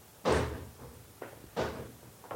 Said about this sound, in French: Elle s'immobilise derrière la porte vitrée et frappe.